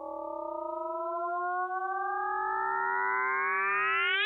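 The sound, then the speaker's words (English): A sonified gravitational-wave signal from two colliding black holes forms a smooth, rising whoop, with layered tones that sweep steadily upward in pitch and grow slightly louder toward the end, with no voices over it. “you have two black holes colliding and it makes this whoop.”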